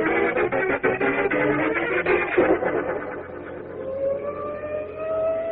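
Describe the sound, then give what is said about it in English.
Fire engine sirens give a loud, steady, harmonic wail that fills the whole stretch, and the pitch climbs toward the end. “Wait, Caesar, what's going on? Look at all those fire engines.”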